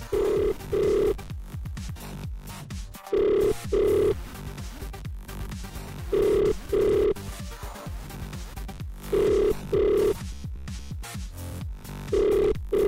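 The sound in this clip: Ringback tone on an outgoing telephone call: a double burst of ringing repeats at regular intervals of about three seconds, several times, over a steady background.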